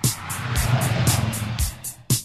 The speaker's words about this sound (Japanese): Car 車